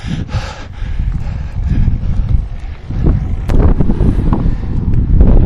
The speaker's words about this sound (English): And now the wind throws salt in the wound by hitting me in the face with high winds.